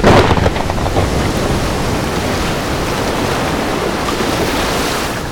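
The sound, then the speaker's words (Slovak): Roaring sea storm as wind and foaming waves slam into a ship's bow: a dense, continuous rushing roar that is loudest in the first half second, then holds steady and heavy to the end. “Búrka obrovskou pesťou vetra a spenenej vody prudko udrela do provy našej lode.”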